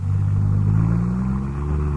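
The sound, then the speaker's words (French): American Chevrolet car engine giving a steady, loud, low rumble with a continuous humming drone, running alone without talk. “Une voiture. Une Chevrolet. Une voiture américaine.”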